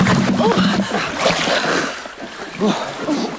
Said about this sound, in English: The Plateau Indians race through the lake. The canoe bucks, and for a moment.